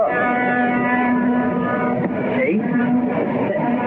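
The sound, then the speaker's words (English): A boat's horn is pressed and blares in a loud, steady droning tone over rumbling noise, briefly wavering midway before the blast carries on. “Stan picks up a boat's horn and presses it.”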